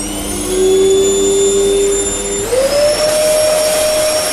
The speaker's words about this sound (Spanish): La insoportable aspiradora sería el arma perfecta.